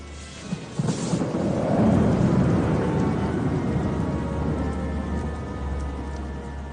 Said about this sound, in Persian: Nun reißt euch mal am Riemen, von so einem bisschen Gewitter geht die Welt nicht unter.